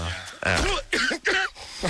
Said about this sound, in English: Excuse me. Don't you have some sort of like electronic way to sort that all out, slow it down? I'm thinking. Lawrence Olivier. Play it backwards. Play the cough backwards.